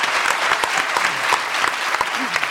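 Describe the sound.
Applause from a comedy-show audience welcoming a performer onto the stage, with steady, dense clapping and a few sharper individual claps standing out.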